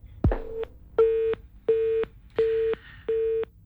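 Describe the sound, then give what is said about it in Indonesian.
Telephone busy tone after a phone call is cut off: a click, then a run of evenly spaced, steady mid-pitched beeps with short gaps between them, heard alone with no voices. “teleponnya terputus dari Ustadz Lutfi”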